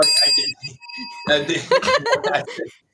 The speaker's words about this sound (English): I'm ringing my bell.